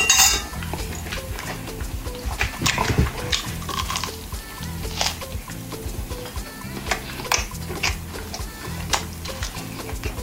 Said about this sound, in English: I'm just going to stir and, you know, scoop some in a plate, taste, and I'm ready to eat.